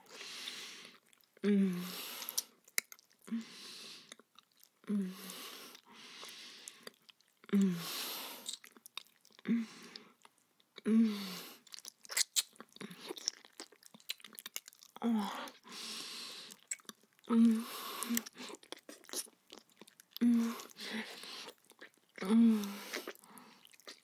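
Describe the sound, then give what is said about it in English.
Someone chews food with quiet, wet, squishy chewing in repeated bursts every couple of seconds, mixed with soft breathy sounds. “Oh, it tastes really good. Maybe it's just because I'm hungry.”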